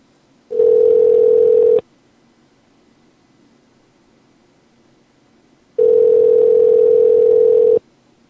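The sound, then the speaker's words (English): Ringback tone of a phone call to a restaurant ringing unanswered: two long, steady, low-pitched buzzing tones with a long stretch of near silence between them. “won't even answer the damn phone.”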